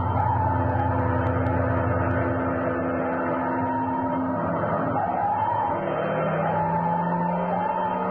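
Fire engine sirens wail as sustained, droning tones over a continuous vehicle rumble. The sound holds at a steady, fairly loud level from start to finish, with the pitch shifting partway through.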